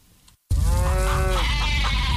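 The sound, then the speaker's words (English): Farm animals break into a loud, drawn-out bleat after a moment of silence, the wavering cry followed by more rough, continuous animal noise. “Hey, everybody, calm down. It's okay. Oh, it's coming. The farm animals can always feel it.”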